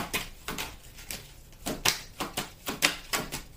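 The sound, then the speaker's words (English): A deck of cards being shuffled during a card reading, heard as many quick, crisp, papery flicks in an uneven rhythm, alone without voices. “As I'm shuffling these cards and waiting for one to come out,”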